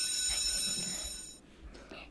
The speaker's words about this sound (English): Vissy, please start the timer.